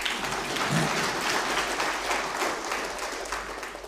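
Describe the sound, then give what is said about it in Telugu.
Audience at a speech breaking into steady, dense applause that holds evenly throughout and tapers slightly toward the end. “మీకు నమ్మకం ఉంటే కొట్టండి చప్పట్లు”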